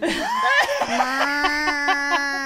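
A person imitates a chicken clucking. Warbling, rising and falling vocal sounds lead into a steady held tone, broken into a run of quick, evenly spaced pulses.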